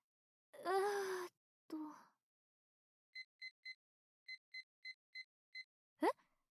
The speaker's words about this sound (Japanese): あ、これですか。作成の終了時間に合わせてタイマーセットしたんですよ。